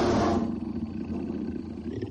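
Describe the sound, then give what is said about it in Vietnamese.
A wild beast roaring and growling, a loud burst at the start easing into a low, rumbling growl that carries on alone to the end. “Còn có cả tiếng gừ gừ mà chỉ có dã thú mới có thể phát ra.”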